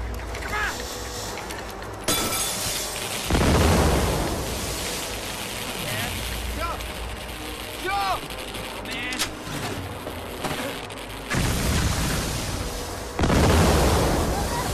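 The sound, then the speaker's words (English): Electric poles exploding one after another in a line toward a workman on a crane, heard as several heavy booming bursts over a continuous crackling, hissing roar. “More poles explode, moving in a line towards the workman.”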